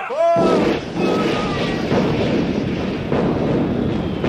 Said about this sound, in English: I'll draw me own mustache across your face with a cannonball! Fire!